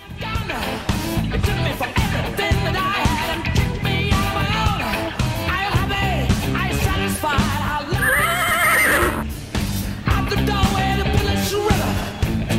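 A horse neighs once in a high whinny partway through, set against a continuous bed of music.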